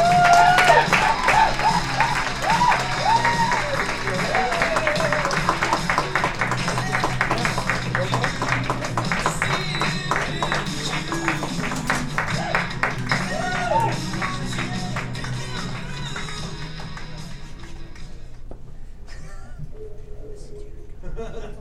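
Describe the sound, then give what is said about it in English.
An audience applauds and cheers to welcome a performer on stage, with sustained dense clapping that thins and fades near the end and voices mixed in. “Everybody, please put your hands together.”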